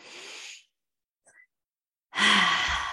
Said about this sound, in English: Now I got to take a minute here and take a deep breath.